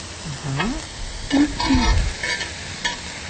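Chicken and carrot being stirred in a hot pan, with a soft sizzle under a few scraping, clattering stirs.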